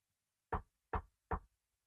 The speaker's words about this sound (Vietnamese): bước đến gõ cửa thì vẫn không thấy ai mở cửa cả